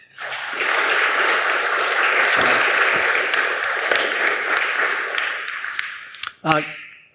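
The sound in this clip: A church audience applauds with dense, steady clapping that swells, holds for several seconds and then tapers off, followed by a brief voice at the end.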